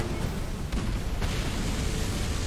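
Bombs exploding in the video game Battlestations: Midway, a dense, loud, continuous low rumble of blasts with no separate, countable impacts.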